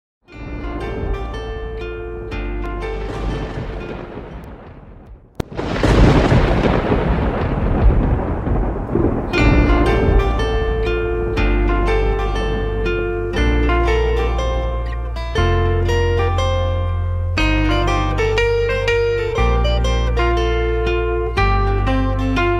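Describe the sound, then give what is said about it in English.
Thunder sound effect within a children's nursery rhyme: a long rolling rumble builds, then a sharp crash breaks in, followed by bright, steady melodic music. “I hear thunder, I hear thunder.”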